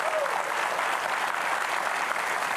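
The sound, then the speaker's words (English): A studio audience welcomes a guest with warm applause: dense, steady clapping that holds at an even level from start to finish. “so please, would you help me welcome Steve Arterburn?”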